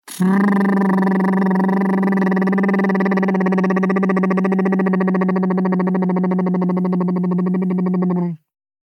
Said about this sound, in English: and we'll just motorboat our lips as we breathe out.